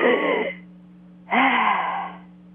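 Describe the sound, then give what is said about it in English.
A person imitates a dying, rasping breath like fluid in the lungs: two long, harsh, breathy gasps, the second longer and trailing off. “all of a sudden we heard what I can only describe as a dying, rasping, like fluid in the lungs type breath. It was like,”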